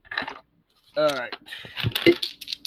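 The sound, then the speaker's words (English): Dice are rolled for a tabletop role-playing game, a few quick clattering clicks and rattles under and between people talking. “Give me a maneuver minus 2D. Okay, let me roll it over again then.”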